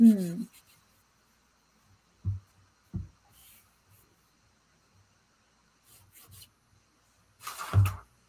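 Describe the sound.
Faint, scattered pencil-like strokes on paper as feet are sketched over and over, a few soft scratches separated by long quiet gaps.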